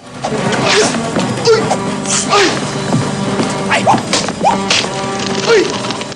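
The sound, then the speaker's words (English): A birdcage is smashed and birds flutter during a fistfight between men. The whole stretch is a dense run of sharp cracks, whips and thuds, with quick higher squeaky sounds between the hits. “smashes a birdcage and birds flutter around as the men scrap.”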